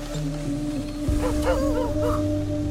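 Sled dogs being driven in the morning give a few high yips and whimpering cries over a steady humming tonal drone that runs through the whole passage.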